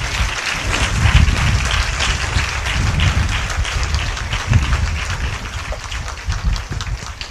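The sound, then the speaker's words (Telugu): A church audience claps loudly for another audience, a dense, continuous roar of applause that holds strong throughout with slight swells and dips. “ఒక్కసారి ఆ సంఘం కొరకు చప్పట్లు కొడదాం గట్టిగా”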